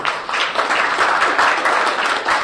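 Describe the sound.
An audience applauds at a public event in Wilmington, Delaware. The clapping is thick and steady, moderately loud and unbroken, with no voices rising above it.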